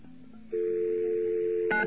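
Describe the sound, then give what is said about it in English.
Touch-tone telephone dialing tones on a phone line whose touch-tone service is unpaid, so the tones go unanswered. A low hum gives way to one steady, sustained tone that holds for over a second before shifting briefly at the end. “That's what happens if you don't pay that touch tone fee. Your tones just go out into space, and absolutely nothing happens to them.”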